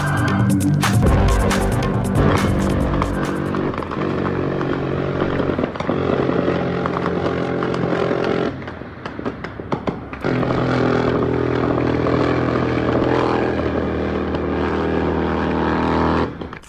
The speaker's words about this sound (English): So if you're wondering what that was a helicopter gunship, minigun, firing massive bursts in Mexico